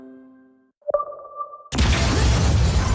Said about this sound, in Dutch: Explosie in het flatgebouw waarbij een vrouwelijke rechercheur is omgekomen.